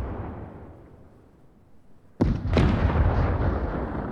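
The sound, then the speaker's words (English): A mortar shell explodes nearby during a barrage in a wartime fight between German and American soldiers. After a quiet low rumble, a sudden loud blast and a second sharp crack break out, then fade into a sustained heavy roar. “A mortar hits nearby and the shrapnel takes out the German officer.”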